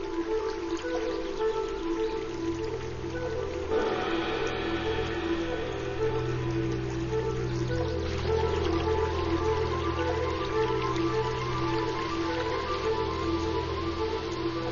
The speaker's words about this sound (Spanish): El agua busca nuevos caminos a través del bosque.